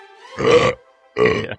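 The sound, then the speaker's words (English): A small burp in two short, throaty voiced bursts separated by a brief pause, each rough and fairly loud, with no talk around them. “I gave birth to a tiny baby burp.”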